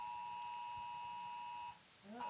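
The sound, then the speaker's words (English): A phone emergency alert tone for a tornado warning sounds as a steady, piercing electronic tone. It holds for under two seconds and then cuts off, after which a voice begins. “Oh, it's the stupid phone thing. Whoa. Tornado warning. Whoa. Jesus. Tornado warning. Brooklyn tornado, man. You remember what was that? That was my phone telling us we're going to die.”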